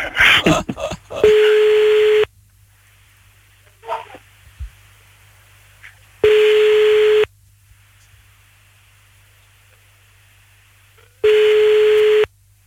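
Telephone call being placed to an uncle: a quick burst of clicks, then three long, steady, mid-pitched ringing tones at even intervals with silence between them.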